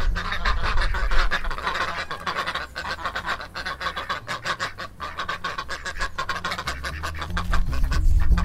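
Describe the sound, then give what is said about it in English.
Female Indian runner ducks at a zoo in Dublin quack loudly and continuously, with many harsh, overlapping honking calls in a dense, busy chorus and no talking. “That was the sound of female Indian runner ducks in Dublin Zoo.”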